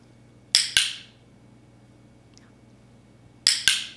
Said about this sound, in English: That was the sound of a clicker. And what a clicker does is it helps us tell the dog that they've done a good job